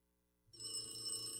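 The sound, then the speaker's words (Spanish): A telephone bell rings out after a brief near-silent moment, then keeps up a bright, steady electric trill to the end without any voices. “Anacleto, conteste ese teléfono. No puedo, jefe.”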